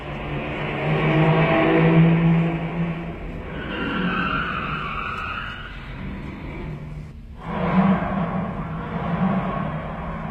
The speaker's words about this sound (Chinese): 汽车又开走了，大家松了一口气。